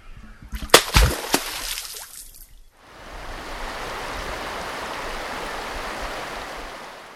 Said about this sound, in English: The first sound was a beaver slapping its tail on water. Living. The second sound was water flowing in a river.